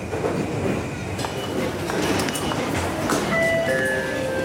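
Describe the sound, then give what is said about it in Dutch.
Busy train station ambience at Shinjuku in Tokyo, a steady wash of rail and train noise with a sustained high tonal ring near the end. “stap nu uit in Shinjuku. Een van de drukste stations van Japan.”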